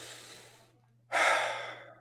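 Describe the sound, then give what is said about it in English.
A deep breath drawn in during a guided breathing exercise: a softer airy breath fades out, a short silence follows, then a loud, rushing inhalation swells abruptly and slowly tapers off. “And hold on while letting go. And breathe in.”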